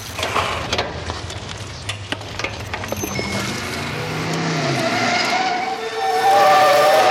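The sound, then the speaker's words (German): A red car appears suddenly and skids past cyclists, its tires squealing and its engine note climbing in pitch as the noise swells, growing loudest in the final second. “Vorsicht, Peter, das rote Auto da! Wo kommt der denn auf einmal her?”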